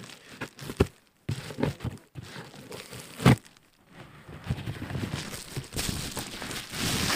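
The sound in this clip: An envelope with a small tear on its outside, holding a tabletop role-playing game, is handled and crinkled, giving irregular rustles and crackles with one sharp crunch partway through, and a steadier rustling toward the end.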